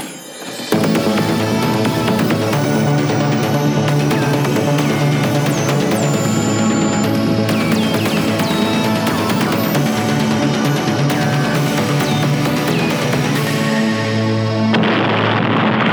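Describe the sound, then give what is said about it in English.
Intro theme music for a show about VHS tapes, composed by Scott Roger: loud, dense layered instruments with sustained tones that play steadily throughout, then change briefly near the end. “That was gold! That theme right there was done by Scott Roger of Horror Movie Night.”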